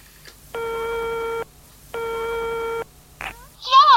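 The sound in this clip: Telephone ringback tone heard while a call is placed, two long, even buzzing rings separated by a short pause, followed by a voice starting at the very end.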